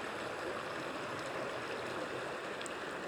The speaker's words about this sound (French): Concentrez-vous sur cette eau qui est près de vous.